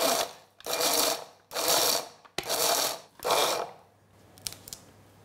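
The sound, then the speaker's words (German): Walnut kernels and sugar are ground together, giving several loud whirring bursts of a few seconds each, separated by short pauses, and ending in faint, scattered rattling clicks. “Und ich habe hier 50 Gramm Walnusskerne und 2 Esslöffel Zucker. Und das mahle ich jetzt zu geriebenen Nüssen, wenn man so will.”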